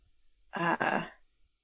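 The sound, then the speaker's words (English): A voice imitates a tiger's snuffling laugh with breathy, sigh-like nose exhalations: two close, fairly loud voiced puffs with a brief dip between them, then a fading tail. “like a snuffling sort of sound. Not a purr, definitely, but like a lot of nose exhalation sounds.”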